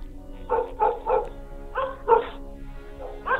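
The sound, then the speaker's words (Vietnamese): Dogs bark loudly outside a gate in a run of sharp, mid-pitched barks that come in uneven bursts of two or three, with short gaps between them. “Bỗng dưng tiếng chó ở ngoài cổng cắn lên inh ỏi, như là cất lên những tiếng dài răng rằng.”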